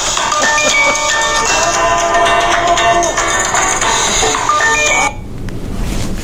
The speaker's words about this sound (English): Whose phone was that? I told you to turn your phones off.